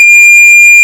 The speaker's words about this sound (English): So instead of the story bell, now I have the story beep. It sounds like this.